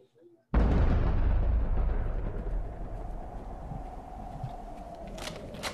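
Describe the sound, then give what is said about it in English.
Gunfire in a film scene erupts as a sudden loud blast and gives way to a sustained, rumbling, crackling roar that slowly eases off, with a few sharp cracks near the end. “There's a scene where shots are being fired, and then you see one of the guys is wearing a gas mask. I don't know. Let's rewatch it here.”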